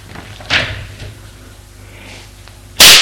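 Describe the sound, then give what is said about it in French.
A violent slap lands across someone's face, hard enough to knock them off a chair. One sharp, loud smack comes at the end, after a few faint, softer rustles. “Il lui donne une gifle tellement violente que ça l'a fait tomber de sa chaise.”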